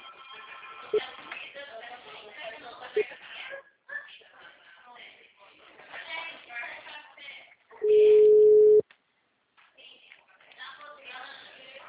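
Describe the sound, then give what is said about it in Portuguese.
A telephone busy tone sounds as one loud, steady, low beep lasting about a second, with people talking before and after it. “Alô? O número está ocupado.”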